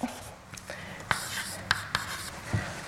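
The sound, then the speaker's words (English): Faint scratching and tapping of writing on a board during a mathematics lecture, with a few sharp strokes and knocks spaced through a quiet murmur of speech. “Now I have to write down 3 by 3 matrices.”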